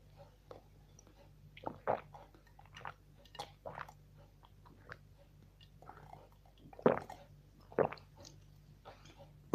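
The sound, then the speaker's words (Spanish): Sips and swallows of a cola soft drink: faint, wet, irregular gulping bursts separated by short pauses, over a low steady hum. “Pues sí, le voy a hacer caso. Voy a beber un poco de refresco de cola.”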